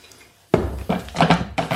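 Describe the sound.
A tea cup clinks and knocks against a hard surface as it is handled: a few sharp, bright clatters after a short silence, fairly loud, with no voices.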